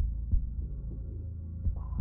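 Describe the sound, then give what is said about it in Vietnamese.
A pounding heartbeat thuds as a few deep, muffled low beats over a steady low throbbing hum. “tim trong ngực bắt đầu đập mạnh, hồi hộp đến thở gấp liên tục”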